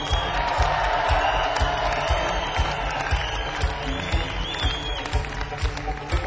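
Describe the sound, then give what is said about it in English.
A crowd cheers and applauds for the drummer as the band members are introduced at a live show, with loud continuous clapping and scattered whoops throughout. “On the drums, make a whole lot of noise for Bob Cash Sale.”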